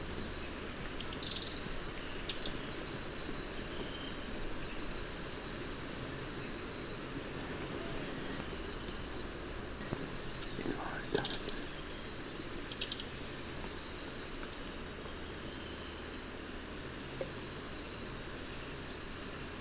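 An ashy-throated bush tanager and a thrush-like wren calling: two bursts of high, bright, chattering song, one early and one later, over a steady insect drone, with a few faint scattered chirps between them.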